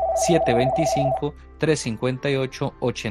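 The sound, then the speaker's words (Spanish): Telephone ringing with an incoming call on a call-in line: a steady, pulsing mid-pitched ring lasting just over a second under a speaking voice, with the talk continuing after the ring stops. “Tenemos una llamada.”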